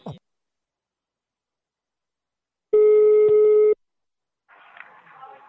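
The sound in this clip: A telephone call is being placed. A single steady electronic line tone, about a second long, sounds between stretches of silence. A short sound comes before it and a faint voice after it.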